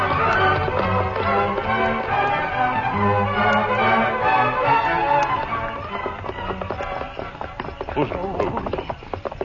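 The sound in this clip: Hoofbeats of Silver, the Lone Ranger's horse, galloping off in a rapid, rhythmic clip-clop. The beats run beneath people talking and grow sharper toward the end.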